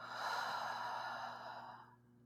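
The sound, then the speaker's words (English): A deep breath out: one long, breathy exhale, steady at first, then fading quickly into quiet near the end. No voices. “we're going to take a deep breath in together. Let it out.”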